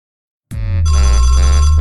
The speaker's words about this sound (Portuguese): Um pobre ligando pra mim. Chamada a cobrar.